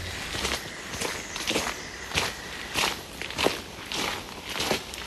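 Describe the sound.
Footsteps walking a path among trees: a steady series of even, gently crunching steps in a regular rhythm, moderately loud over faint background noise, with no talk.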